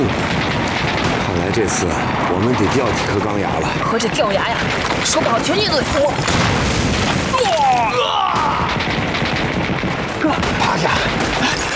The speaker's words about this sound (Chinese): 司令，不好了，共军打炮了！什么？共军采用大炮？